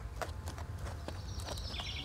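Hooves of a show-jumping horse clip-clopping at a walk on a training ground, several steady, moderately loud steps over a low rumbling background.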